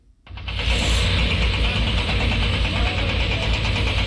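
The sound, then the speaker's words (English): Heavy machinery at a building site in the hills of Hebron, with diggers, cranes and lorries delivering caravans: a loud, steady engine drone that swells in after a brief quiet start and holds evenly throughout. “This is the sound of the heavy machinery that's reshaping the landscape in the hills of Hebron. Diggers, cranes, and six lorries delivering high-end caravans.”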